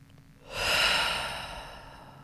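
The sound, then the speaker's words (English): A single deep breath in, taken during a guided breathing exercise: a breathy, airy rush that swells quickly, then slowly tapers away, heard alone with no talk over it. “Let's go ahead and take a deep breath in. Let's give ourselves another one. Deep breath in.”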